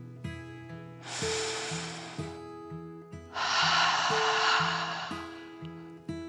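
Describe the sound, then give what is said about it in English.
A deep breath in and then out, as two airy whooshes with a short pause between them; the second is longer and louder. A gentle, repeating musical tune plays softly underneath, with no talk. “The little robot took a deep dragon breath in and out.”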